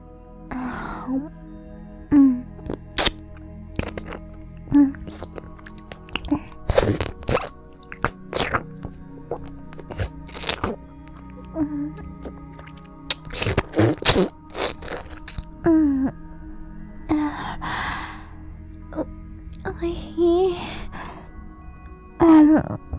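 Wet ASMR mouth sounds of sucking and licking on an ear: many soft plops, smacks and drips at irregular intervals, with occasional breathy exhales between them.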